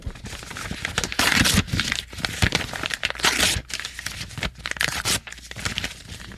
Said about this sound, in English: so if you could make smaller pieces out of the contract. And just really shred it into little tiny pieces.